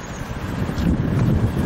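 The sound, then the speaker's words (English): Strong outdoor wind buffets the microphone in a steady, low, rumbling roar that swells slightly partway through, with no voices. “This is horrible here. It's windy. Very bad.”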